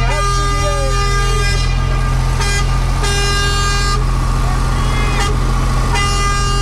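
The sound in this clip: Truck horn honks as the truck drives past a crowd lining the street: a sustained tooting tone with a couple of louder blasts, over steady engine rumble and people talking.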